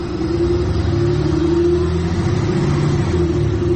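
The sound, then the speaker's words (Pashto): A car engine rumbles as the car arrives, a loud, continuous low drone that holds steady without clear breaks. “دی موتر را غی”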